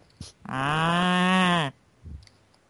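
A cow moos while being milked by hand in a stable, giving one long, loud, low bellow that holds a steady pitch before dropping off abruptly. A brief faint knock follows in the quiet afterward.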